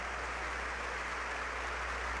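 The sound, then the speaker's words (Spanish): Faint audience applause in a church for consecrated religious sisters: a soft, even, continuous patter of many hands, with a low steady hum beneath. “Un aplauso para todas nuestras hermanas que han consagrado su vida al Señor.”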